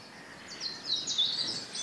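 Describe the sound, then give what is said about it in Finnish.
European robin song at dawn by Lake Hyvelänjärvi: faint, thin, high-pitched warbling phrases with quick chirps, heard alone against quiet background hiss. “Punarinta on aina Sellainen lintu, joka tuo kevään. Erittäin väkevä.”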